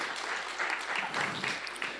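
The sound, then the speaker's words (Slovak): Applause from an audience for a group of boys: dense, steady clapping that holds at an even level for about two seconds, with no talk over it. “Super, môžete im dať malý potlesk chalanom.”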